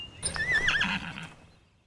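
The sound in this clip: A horse neighs once, a loud wavering whinny lasting about a second that trails off into quiet, with no voices.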